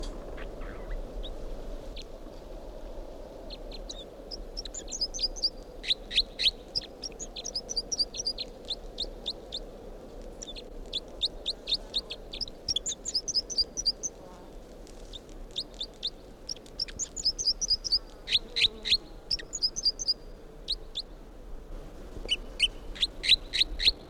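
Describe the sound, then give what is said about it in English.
A bird sings repeated short phrases of quick, high-pitched chirps that recur in bursts with brief gaps between them, faint over a low steady background hum. “this is the song of bird 305.”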